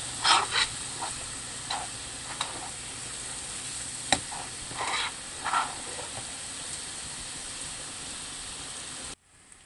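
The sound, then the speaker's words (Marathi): Ginger-garlic paste sautés in a pan for a chicken dish with a continuous soft sizzle and hiss. A few sharp stirring clicks and scrapes cut through, and the sound stops abruptly just before the end. “हलकंच गुलाबी रंगावर आलं लसूण paste परतून घेऊया।”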